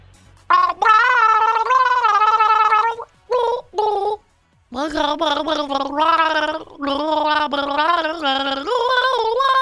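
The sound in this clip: Gargling voice carries a pop song melody for a guessing game, a bubbling, wavering tune in loud sustained phrases with a few short breaks in the middle.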